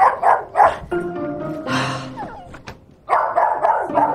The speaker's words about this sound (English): I didn't forget about you. Don't worry your furry little head. Wow, you are excited. Loud. They're excited. The dog shakes.